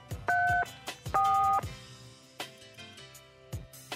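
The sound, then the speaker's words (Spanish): Telephone dialing tones: two steady dual-pitched keypad beeps in quick succession, followed by quieter clicks and soft tones. “Le voy a llamar otra vez a Buscas. Llamar a Buscas.”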